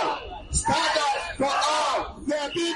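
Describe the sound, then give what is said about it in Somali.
A crowd of protesters shouts demands for legal status for immigrants. Loud, chanted yells come in a few bursts separated by short dips. “Dadkani waxay ku qeylinayaan in dhammaan dadka soo galootiga ah sharci la siiyo oo middaasna loo midoobo si guul looga gaaro.”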